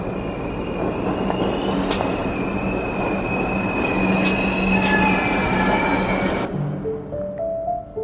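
A subway train in a station rumbles loudly, with high, sustained wheel squeals running over the noise. The train sound then drops away, leaving quieter rising and falling tones.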